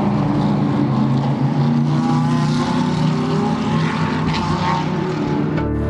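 Racing cars accelerating on a race track during test driving, making a continuous, loud, layered engine roar with droning tones that holds steady throughout and drops off sharply at the very end.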